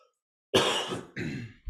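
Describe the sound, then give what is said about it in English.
A person with a lingering winter cough gives two harsh, throaty coughs close together, with a third beginning just as it ends. “I got that old cough that everybody has.”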